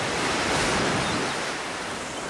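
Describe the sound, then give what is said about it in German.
Surf breaking on the shore of Sylt, a North Sea island, as a steady, dense roar of rushing water that holds at full strength before easing slightly toward the end, with no voices. “Nirgendwo schlägt die Brandung stärker ans Ufer.”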